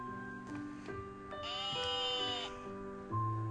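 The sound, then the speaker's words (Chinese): A silly sheep gives one drawn-out, wavering bleat, fairly faint against a quiet, tonal background. “On the way, she met a sheep, a silly sheep. 遇见了一只小羊，一只搞笑的小羊。”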